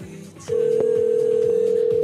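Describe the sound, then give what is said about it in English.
A telephone rings with a loud, steady electronic tone. It starts after a short pause and holds unbroken at one pitch to the end. “Deborah's phone's ringing. Here we go.”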